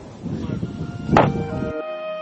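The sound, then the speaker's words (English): Gunfire as people are shot: a single sharp, loud crack bursts out of a rumbling noisy background, followed by a sustained humming tone. “they're shooting them like dogs.”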